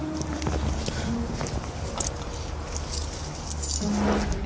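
Keys jangle while someone searches for them, producing scattered light metallic clinks and rustles over a steady low background noise.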